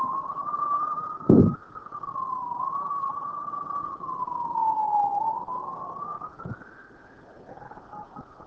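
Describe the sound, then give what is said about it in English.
An emergency vehicle siren passing: a continuous wailing tone that slowly rises and falls in pitch, over a low engine rumble, with a couple of short thumps. “That's an emergency vehicle. If you don't have an emergency, always respect those vehicles. Emergency vehicles.”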